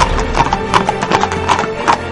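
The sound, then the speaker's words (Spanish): A horse trotting away: a steady run of clip-clop hoofbeats in an even, quick rhythm, fairly loud and continuous throughout. “Montó en un caballo que, ajeno a toda aquella violencia, le esperaba apaciblemente junto a unos arbustos y marchó al trote.”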